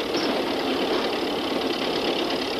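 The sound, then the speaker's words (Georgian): A car engine runs with a steady, even drone that holds unchanged from start to finish, with no talk over it. “გააჩერეთ მანქანა, გესმით? თორემ გადავხტები.”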